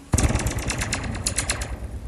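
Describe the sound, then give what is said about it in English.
A taut fence wire being struck: a sharp hit followed by a shimmering, zapping twang, like a sci-fi blaster, with rapid ringing pulses that fade away over about two seconds. “Do you know, this is how they made the sound effect for the blaster guns in the Star Wars movies back in the 1970s? With the fences, right?”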